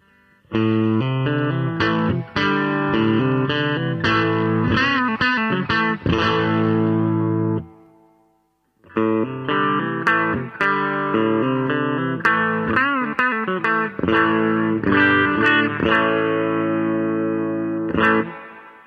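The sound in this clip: Overdriven electric guitar chords strummed with a pick, the distorted tone ringing through two long busy phrases split by a short silence midway, loud and steady with sharp rhythmic attacks.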